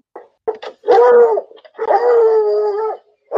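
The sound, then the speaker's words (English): A spooked dog howls twice, long and wavering at mid pitch, each howl led by short yelps, loud and clear with no voices. “something's got the dog spooked”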